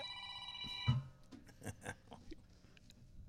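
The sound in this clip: A phone goes off during a studio conversation. A faint, bright, buzzy ringtone sounds in the first second, followed by a few soft knocks and rustles with no talk.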